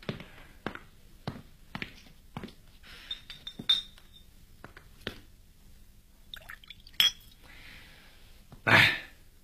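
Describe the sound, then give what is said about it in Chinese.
Glasses clinking in a toast. Light glassy taps and sharper ringing chinks are spread over several seconds, with a few louder rings among fainter clicks. “为我们的合作干杯。”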